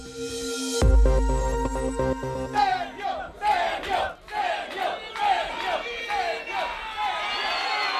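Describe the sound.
A crowd cheers and chants for opposition candidate Sergio Garrido after he wins the Barinas governor's seat in Venezuela. A brief tonal opening gives way to loud shouting that rises and falls in repeated rhythmic waves.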